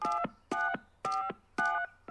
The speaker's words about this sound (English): The fingers you have used to dial are too fat. To obtain a special dialing wand, please mash the keypad with your palm now.